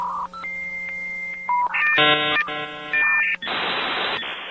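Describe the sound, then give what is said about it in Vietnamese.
Electronic telephone beeps before a voicemail message: a few steady tones of shifting pitch follow one another, some layered, then give way to a loud burst of hiss. “bây giờ nhé, cô thử nghe một đoạn lời nhắn vào điện thoại của Lâm Mang, nghe thử xem sao nhé. Sau vài tiếng tút tút là một giọng nữ quen thuộc.”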